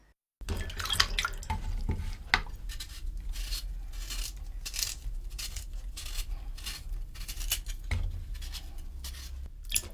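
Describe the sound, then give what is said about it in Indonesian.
Sweet potato pieces dropping into water to soak after cutting and peeling: steady watery splashing and sloshing with many small drips and plops, moderately loud and continuous for the whole stretch, with no voices. “Setelah dipotong, langsung masukkan ubi ke dalam air hingga terendam.”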